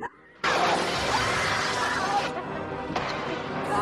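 A loud crash as a masked killer smashes through a wall in a horror film: a sudden burst of splintering, shattering debris that rumbles on for almost two seconds, followed by a second sharp impact near the end.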